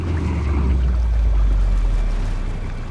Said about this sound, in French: pris dans une folle tempête, son navire fait naufrage, il coule.